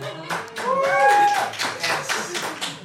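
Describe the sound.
Scattered clapping from a small group of people, a few uneven bursts of claps and taps mixed with voices.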